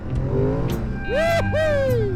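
Motorcycle engine while riding over hard-packed dirt and a banked left curve: a loud, steady droning whine that twice sweeps up in pitch and falls away again as the throttle opens and closes.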